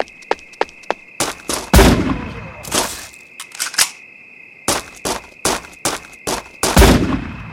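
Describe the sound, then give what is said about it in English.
Sniper rifle shots ring out as many sharp, loud cracks in irregular clusters. Several of the heavier reports carry booming tails, and a faint steady high tone hums beneath them. “Sniper rifle.”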